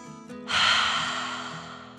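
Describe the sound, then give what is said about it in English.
One long, forceful breath, a loud airy rush lasting over a second, taken as part of a calming dragon-breath exercise inside a tent. A soft sustained musical tone sits underneath before and during it. “once inside the tent, they took 3 deep dragon breaths in and out.”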